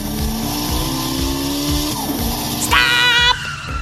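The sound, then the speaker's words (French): A car is driven, its engine droning steadily with regular low thumps, and a high, wavering tire squeal rises near the end before cutting off. “Oui, je conduis bien, vous avez vu.”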